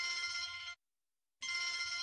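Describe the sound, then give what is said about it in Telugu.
A telephone rings in two bright, buzzing bursts with a short silent gap between them, heard alone. “Phone వచ్చింది.”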